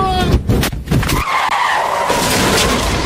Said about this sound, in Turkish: Otoban otoyolu korku dolu bir kazaya sahne oldu. 1020 beygir gücündeki Tesla Model S Plaid yüksek hız testinde adeta parçalandı.